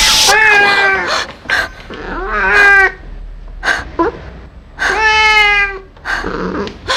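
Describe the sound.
A cat meows gently: several drawn-out, clearly pitched meows alternate with shorter chirps and quiet pauses.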